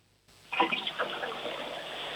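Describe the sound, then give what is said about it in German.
A toilet flushes with a sudden rush of water that swells loudly and then settles into a steady gurgling wash, heard alone without voices. “Ja, das war eine tolle Klospülung, muss man schon sagen.”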